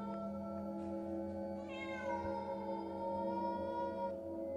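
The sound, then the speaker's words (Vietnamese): A black cat in an alley at night meows once, a brief, faint cry over a quiet, steady droning background. “con mèo lại ngẩng lên nhìn bà chăm chăm với ánh mắt xanh lè lè, kêu lên mấy tiếng.”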